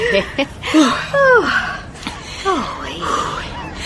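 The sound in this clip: A person pants and catches their breath in a few short voiced gasps with falling pitch, separated by brief pauses.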